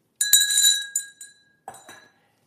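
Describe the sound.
A bell rings a few times with bright, high, glassy clinks and short shimmering tails. It marks a dental patient getting a crown at a dental office.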